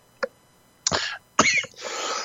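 Coughs from a dry throat: a faint tick, then a few short, harsh, breathy bursts, the last one longer and raspier, heard alone without talk.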